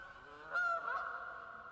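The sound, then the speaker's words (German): A goose gives a brief burst of nasal honking near a shore as it is herded toward the bank, rising out of a faint, steady background. “Jetzt versucht er, die Gans ans Ufer zu treiben, aber Gänse sind natürlich geschickte Flieger.”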